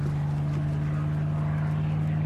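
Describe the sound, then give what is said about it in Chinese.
An airplane flying overhead gives a steady, low droning hum with a sustained tonal buzz, moderately quiet and continuous throughout, with no clear change in pitch. “哎呀， 飞机”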